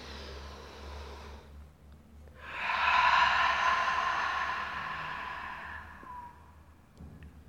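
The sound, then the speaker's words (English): Deep ujjayi breathing: a soft breathy hiss of one breath fading away, then after a short pause a longer, louder drawn breath lasting several seconds before slowly tapering off. “And one more like that. Breathe out. Last one, deep breath in.”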